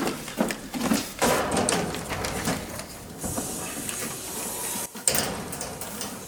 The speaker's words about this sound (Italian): Ti apri l'acqua calda. Sarà meglio.